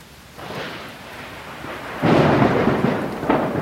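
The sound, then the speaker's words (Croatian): Rain falling with thunder, a low rolling rumble under a steady hiss that swells to a louder, heavier roar partway through and stays strong to the end, with no voices. “Kiša.”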